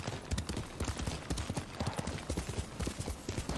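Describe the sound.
Horse hooves clip-clop in a brisk, steady rhythm of many quick, hollow knocks that run evenly throughout.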